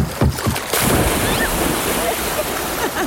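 A person jumps off a cottage dock into lake water: a sudden loud splash, then continuous rushing water with wind buffeting.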